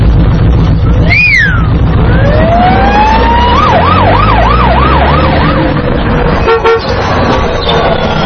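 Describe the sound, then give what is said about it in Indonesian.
A police car siren gives a short chirp, then a rising wail that breaks into a fast, regular up-and-down warble, loud over a steady low rumble. “sayyaratu syurtah. Sayyaratu syurtah. Sayyaratu syurtah.”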